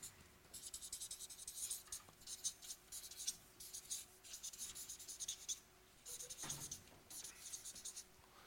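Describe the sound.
A pen or marker scratches across paper while someone draws circles and writes words on a diagram. The scratchy strokes come in repeated bursts separated by short pauses, and they stay soft and close throughout.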